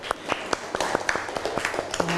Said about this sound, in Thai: ปรบมือเพื่อนหน่อยเร็ว